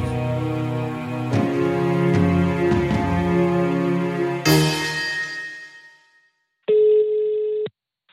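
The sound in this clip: A telephone ringing out on an outgoing call: a single steady electronic ring tone near the end, following a fading tonal passage.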